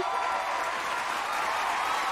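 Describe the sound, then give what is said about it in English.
Sustained audience applause, a standing ovation at the end of a stage show, forming a dense, even wash of clapping from start to finish. “Look, a standing ovation. They like us. They really like us.”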